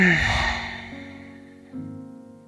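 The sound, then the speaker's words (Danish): A deep exhale during a yoga session, a breathy rush that fades within the first half second, is followed by soft sustained tones that enter in two steps and slowly fade. “Tag en dyb indånding. Og udånding.”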